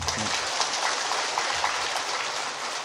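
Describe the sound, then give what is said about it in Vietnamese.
Applause from the audience at a talk to meditation practitioners signals that time is up: a steady, dense wash of many hands clapping, fairly loud and unbroken for its brief length. “vỗ tay là hết giờ phải không? Vỗ tay là hết giờ.”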